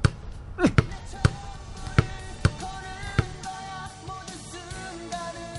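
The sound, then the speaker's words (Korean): A basketball bounces on a court in several sharp, irregular thumps over the first three seconds, then the bouncing stops and only a quieter background remains. “너 다시 농구 시작했구나.”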